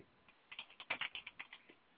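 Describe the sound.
Fingers type a question on a computer keyboard in a quick, faint run of many light keystrokes with uneven rhythm and no other sound.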